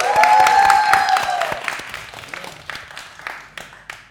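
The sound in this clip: Audience applause for a stand-up comedian, loud and dense at first, then thinning into scattered individual claps that fade over a few seconds.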